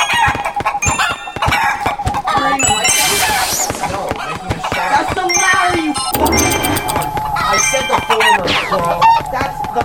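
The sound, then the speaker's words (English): Video game chickens cluck, squawk and crow as they are killed, in a dense, busy stretch of bright calls mixed with other game sounds. “I just killed two chickens on the same square.”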